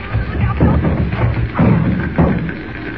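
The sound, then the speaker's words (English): A door being forced in inside a burning building, heard as a few heavy, dull thuds against a dense, rough background noise. “look out! The door's coming in!”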